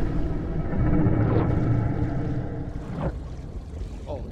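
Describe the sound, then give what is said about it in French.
A person imitates a whale call with a few drawn-out, sweeping moans over a steady low rumble of water and boat noise, moderately loud and with no clear words. “Arrête un peu d'essayer de parler le baleine, tu vas empirer la situation. Oh, quel bruit étrange.”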